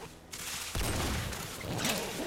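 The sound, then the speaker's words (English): Shotgun fire during a video game shootout: a sharp blast, then a dense, sustained roar of gunfire noise, fairly faint overall. “Shotgun's so much slower, though. So much slower. Oh, he's just shooting and praying to hit him.”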